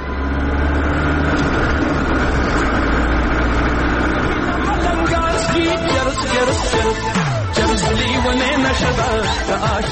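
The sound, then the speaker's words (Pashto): Car engine running while the car is driven fast, a loud, steady low rumble that fills the whole clip, mixed with other dense background sound. “دا موټر ولې دونه تیز چلوي؟”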